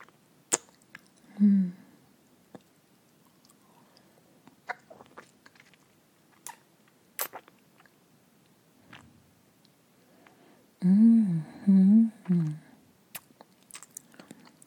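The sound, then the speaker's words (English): Swollen plums are bitten into and chewed, with faint moist clicks and smacks scattered throughout, broken by a few loud, muffled hummed vocal sounds, most of them bunched together near the end. “I wonder if I could fit even one of these poor, excited, swollen plums into my mouth. Let's try.”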